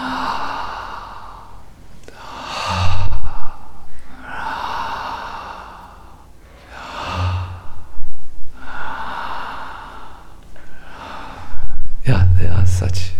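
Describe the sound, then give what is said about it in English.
A devotee chants Radha in long sustained vocal phrases and draws a few loud, sharp breaths in between. “Radha, Radha, Radha, Radha. Some devotees do like this when they breathe in.”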